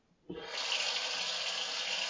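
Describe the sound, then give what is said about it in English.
Cold water running from a tap, a steady bright hiss that starts abruptly after a brief quiet moment and continues evenly to the end. “I think I'll go pour some cold water on them.”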